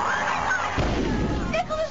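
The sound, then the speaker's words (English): A gunshot in a comedic Christmas film scene: one sudden loud blast followed by a lingering low rumble, with voices around it. “You shot Santa?”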